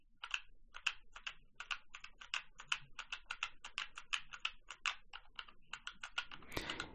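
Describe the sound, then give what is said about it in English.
Someone types a password on a BT Speak keyboard, producing many faint, crisp keystrokes in a quick, uneven rhythm, with a brief louder rustle near the end. “We were asked for the password, and I feel those status pulses on my BT Speak. So I'm going to type that now.”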